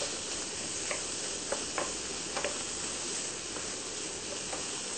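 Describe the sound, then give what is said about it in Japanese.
Slices of ham fry in a pan over medium heat, giving a faint, steady sizzling hiss. A few soft ticks and small pops break through the sizzle at irregular intervals. “ちょっと焦げそうになってきた場合には中火にします。ハムに少し焦げ目がついたぐらいの方が、美味しく感じられますね。”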